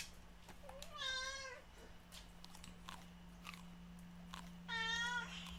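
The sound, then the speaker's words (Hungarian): A domestic cat meowing plaintively in an apartment: two drawn-out, wavering meows, faint and separated by a quiet stretch with light clicks, over a steady low hum. “Igen, Obika nagyon jó színész, elképesztően keservesen tud egyébként nyávogni”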